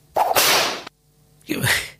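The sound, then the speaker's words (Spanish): Two loud whooshing, whip-like bursts separated by a short gap, serving as a radio station's 1 p.m. time signal, each a harsh rushing swish heard alone. “va a sonar el top de la una de la tarde”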